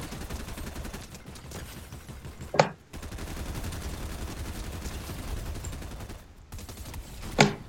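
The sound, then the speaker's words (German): Gunfire in a video game during a ranked duos match: two sharp, loud shots stand out about five seconds apart over a steady bed of game noise. “Schießen in 3, 2, 1.”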